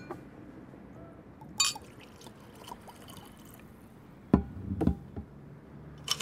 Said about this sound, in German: Du trinkst Cognac, richtig? Das ist richtig. Ich mach dir einen.